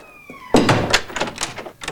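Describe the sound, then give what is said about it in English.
A door is opened with a single solid thunk, followed by a few softer knocks and rattles. “The woman waits till Mrs. Mills has left the darkened room, then opens the door to the children.”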